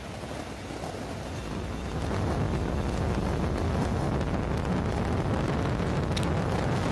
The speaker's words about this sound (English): And liftoff of NASA's Roman Space Telescope on a mission to revolutionize our understanding of the universe. Range. All M1D chamber pressures are nominal. Falcon Heavy has cleared the tower and is on its way to space.